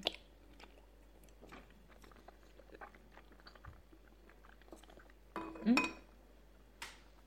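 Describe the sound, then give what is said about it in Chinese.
Someone eats a meal, chewing and biting food, with a few light clinks of dishes and cutlery. The sounds are faint and scattered, with one louder cluster near the end. “可能啊，饭菜里也有春药，可是当下也只能吃了呢。”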